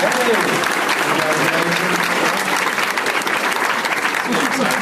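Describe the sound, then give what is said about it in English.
Enthusiastic audience applause congratulates a contestant on a show, a loud, continuous wash of clapping that stays steady throughout with voices mixed underneath. “Let's hear it for Dave, everybody. Congratulations.”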